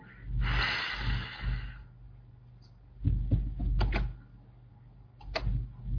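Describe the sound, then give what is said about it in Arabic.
A deep inhalation during a breathing exercise: a long, rushing breath of about a second and a half, followed by scattered soft clicks and shorter breath sounds. “شهيق”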